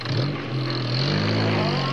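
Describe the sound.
A car engine drives off with a loud, steady rumbling drone that builds slightly as it accelerates. It runs continuously for about two seconds with no talk over it.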